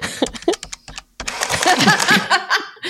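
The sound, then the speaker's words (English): Calculator buttons being pressed: a few quick, sharp plastic clicks, then loud laughter and voices take over. “Oh, calculator. He just wrote boobs in his calculator.”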